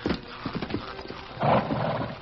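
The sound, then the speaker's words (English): A horse scrambling up from the ground with a rider in the saddle: a run of hoof thuds and scuffs, then a louder, sustained rustling burst near the end. “Silver obeyed the command and carefully lowered himself to the ground. The Lone Ranger grasped the pommel and pulled himself into the saddle, but he was unable to sit upright.”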